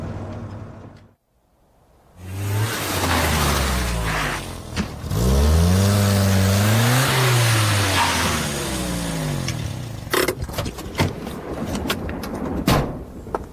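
A car engine drives and revs, its loud drone rising and falling in pitch through several swells after a short dropout near the start. A few sharp clicks land toward the end.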